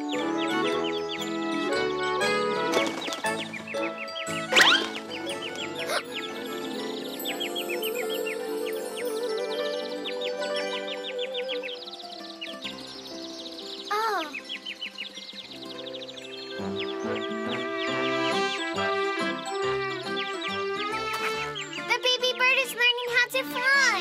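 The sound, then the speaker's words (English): A small bird chirps and calls in short rising notes, mixed in with tinkling, melodic music that runs throughout and partly covers the calls. “Why is that little bird sounding like that?”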